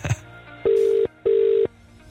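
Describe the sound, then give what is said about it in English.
Ringing tone on an outgoing telephone call: two steady, buzzing rings of equal length with a short gap between them, after a brief click at the start. “Phone line is currently ringing, so fingers crossed they pick up, right?”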